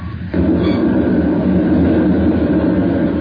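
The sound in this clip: A rocket ship lifts off in a radio drama sound effect. A loud, steady, low rumbling roar swells in abruptly after a brief quieter moment and holds without change.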